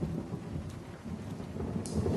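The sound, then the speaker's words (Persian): Rain falling at night, a steady dense hiss of drops that runs without pause, with a low rumble of thunder underneath and no voices. “بارون میاد”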